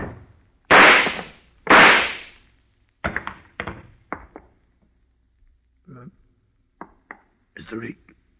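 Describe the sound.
Two loud gunshots about a second apart, each a sharp crack with a short decaying tail, during a confrontation, followed by people speaking in short bursts.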